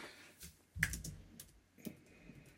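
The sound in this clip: Typing on a computer keyboard: a few quiet, irregular key clicks scattered through a faint, otherwise still background.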